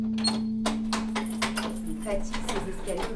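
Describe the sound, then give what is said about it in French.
A key works a stiff door lock, giving a series of metallic clicks and scrapes of uneven rhythm over a low, steady hum. “Elle est dure ta serrure là, non? Hein? Elle est dure ta serrure. Ouais, faut que je mette du W40.”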